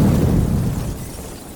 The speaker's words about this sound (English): The device detonated behind Cuddy.